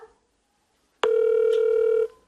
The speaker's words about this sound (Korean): 누나한테 전화해보자.